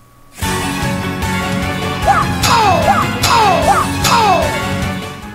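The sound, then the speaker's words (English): Attack sound effects with a shouted 'wah' in a rhythm video game: several short descending vocal cries ring out over loud, continuous, steady game music. “But you can also attack. You will hear yourself say wah, and you wait 1 beat and hit enter like this.”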